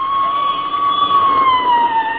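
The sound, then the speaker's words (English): Police squad car siren wailing as it passes, one loud sustained tone that holds steady, then slowly drops in pitch toward the end, with no voices over it. “There goes another squad car, McGee.”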